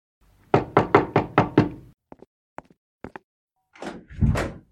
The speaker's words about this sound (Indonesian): tak lama begitu sampai di rumah, pintunya diketuk dari luar.